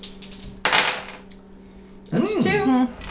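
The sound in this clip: Dice rattling briefly during a World of Darkness tabletop role-playing game session, a short clattering burst followed by quiet and then a person talking.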